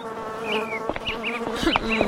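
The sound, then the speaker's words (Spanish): A swarm of flies buzzes around an old mattress in a messy room strewn with bread scraps and garbage, making a steady, droning buzz with several wavering higher whines that come and go throughout. “multitud de moscas revoloteaban a su alrededor.”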